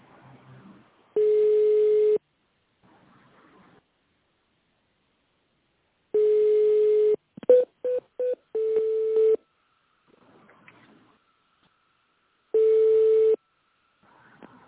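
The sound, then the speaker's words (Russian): Telephone ringback tone on a call to a company, waiting for someone to answer: steady low-pitched one-second bursts separated by long silences, with a brief run of shorter beeps partway through. “Сейчас на ваш звонок ответят.”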